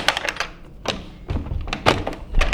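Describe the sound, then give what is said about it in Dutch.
Someone wearing gloves opens a door: a few dull thunks and knocks, interspersed with sharper clicks and rattles. “Wilt jij misschien even de deur voor mij openen? Want dat wil ik doen. Dan moet ik mijn handschoenen niet uit doen. Het zou kunnen dat die vast is.”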